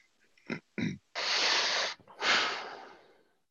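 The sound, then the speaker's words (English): Throat clearing, quiet and alone: two short rough grunts followed by two longer, breathy, raspy rasps with a brief gap between them. “And the throat clearing after that was like...”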